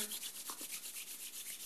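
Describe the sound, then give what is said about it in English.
Palms rubbing together briskly at the close of a guided meditation, a soft, dry friction with many quick back-and-forth strokes in a steady rhythm, heard alone with no talking. “Rub your hands together.”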